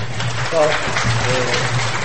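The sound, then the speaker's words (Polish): A church audience applauds a woman who has led worship for the first time. The clapping is loud, dense and sustained, with voices mixed into it. “I te oklaski to są za to, że się odważyłaś. I poprzez te oklaski oddajemy Bogu chwałę za to, że Cię obdarował.”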